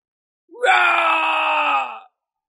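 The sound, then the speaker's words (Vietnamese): A loud, sustained anguished roar comes from a blood-soaked, staggering warrior. The strained, harmonic cry rises briefly at the onset, then holds strongly for about a second and a half before tapering off. “Lại là một tiếng rống to, Chí Tùng”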